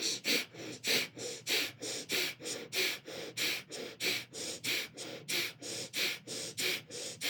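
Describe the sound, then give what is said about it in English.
Breath of fire, the rapid rhythmic breathing through the nose done while pumping the navel. Many forceful, evenly spaced nasal puffs come at a brisk, steady pace of roughly three per second. “you're going to breathe the breath of fire through your nose, pumping your navel. It's going to sound like this.”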